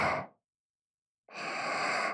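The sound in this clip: Slow breathing in and out: one soft, airy breath fades away at the start, then after a second of silence a long, steady breath follows. It is quiet and has no voices.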